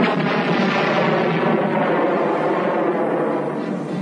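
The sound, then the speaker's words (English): A space station explodes into a huge fireball: a dense, roaring rumble that stays loud and unbroken throughout, easing slightly near the end. “the Death Star exploded in a huge ball of fire.”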